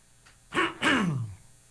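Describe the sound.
A man clears his throat in two rough bursts. The second burst is longer and slides downward in pitch. Both are fairly quiet, with no talk over them.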